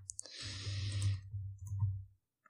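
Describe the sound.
A few sharp clicks from a computer used for a quick online search, with a longer, softer noisy stretch between them and one last faint click near the end.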